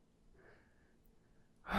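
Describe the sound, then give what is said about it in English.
A person takes deep breaths: a faint, drawn-out breath followed by a sudden loud, breathy rush of air at the end. “Let's take those deep breaths one by one. One by one. Take a deep breath.”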